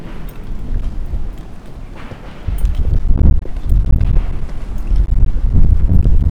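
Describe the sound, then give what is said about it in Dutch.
Strong wind blows outside, a heavy, gusting rumble buffeting the microphone that grows louder partway through and keeps surging in waves. “Ja, de wind is ook nog steeds aanwezig. Nou ja, dat is veel wind”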